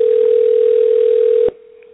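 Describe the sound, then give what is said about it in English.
A telephone dial tone hums as a call is placed, one loud, steady, pure tone that cuts off abruptly after about a second and a half and drops to a much fainter tone. “So we're dialing her up right now and looking forward to it.”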